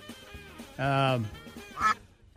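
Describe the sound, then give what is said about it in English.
A duck quacks twice, with loud, nasal, honking calls: the first longer and lower, the second brief and higher, over a faint background murmur. “No harm to the duck, as far as we know.”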